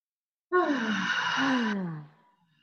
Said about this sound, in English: Just take a deep breath. And allow on the exhale, allow your voice to sound out. Allow your voice to be heard. So inhale.